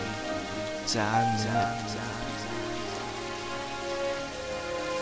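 Rain falls on a surface as a steady, continuous patter that fills the whole clip, swelling slightly louder for a moment near the start.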